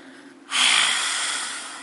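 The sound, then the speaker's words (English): A forceful lion's-breath exhale during yoga, the mouth open and the tongue stuck out toward the chin: one long, loud, breathy hiss bursts out after a brief pause and slowly tapers off. “Feel free to use that lion's breath anytime you need to in your practice.”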